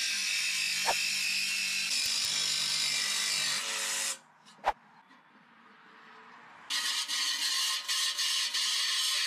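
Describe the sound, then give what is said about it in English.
A jigsaw with a metal-cutting blade cuts a new opening for a 125 mm flange, giving a harsh, steady buzzing rasp that stops for about two seconds with a single sharp knock, then starts again. “mark up my new opening, grind away some of those sharp edges, and then use a metal cutting blade in the jigsaw.”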